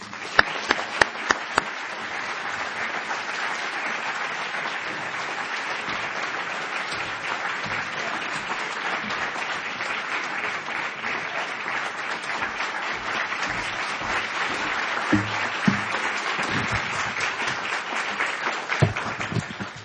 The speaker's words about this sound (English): Ladies and gentlemen, please join me in welcoming Edmund Morris.